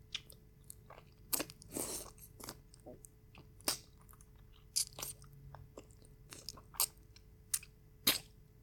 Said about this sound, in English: Oh, yes. This is the sweetest nectarine I have ever tasted.